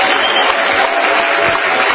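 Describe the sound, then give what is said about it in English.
A church audience claps steadily in praise during a bilingual worship service, a dense and even wash of many hands that stays loud for the whole span. “Clap your hands unto the Lord and give Him praise.”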